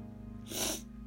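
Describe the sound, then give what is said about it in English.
A person sniffling: one short, faint hissing intake of breath through the nose, lasting under half a second, over a low steady hum. “sorry, I'm sniffling a lot.”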